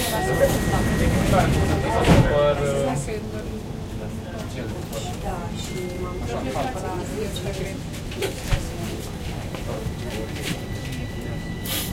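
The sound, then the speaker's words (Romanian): Metro train doors closing after a spoken Romanian warning: a steady tone holds, a sharp thump lands around two seconds in, then the train's continuous rumble takes over with voices heard over it. “Atenție, închid ușile.”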